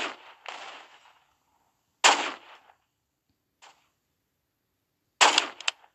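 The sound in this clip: Video game gunfire: a few sharp, crackling shots separated by silence, one faint, and a quick cluster of rapid reports near the end.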